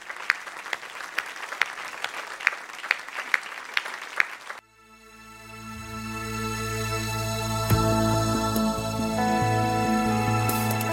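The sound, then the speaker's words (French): A church audience claps in a dense, steady burst of applause for about four seconds. It then cuts off abruptly and sustained music with a droning, swelling tone takes over. “Est-ce qu'on peut acclamer Jésus le roi?”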